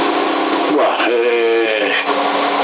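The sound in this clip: A voice talking over a CB radio with an echo effect applied, sounding narrow and band-limited, with continuous speech throughout.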